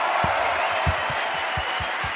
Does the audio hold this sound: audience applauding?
yes